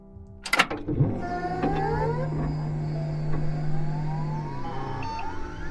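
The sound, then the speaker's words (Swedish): Electronic startup sound of the AI assistant Aida being switched on: a sharp click, then a steady low hum with gliding synthetic tones layered above it, fairly loud and with no voices. “vi tar och slår på Aida här så får hon vara med också”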